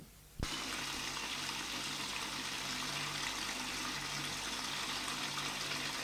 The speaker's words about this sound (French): tous les tonneaux déversent par le robinet le vin.